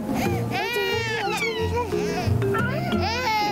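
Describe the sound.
A baby cries in long, wavering high-pitched wails that run through the whole stretch, with adult talk mixed in underneath.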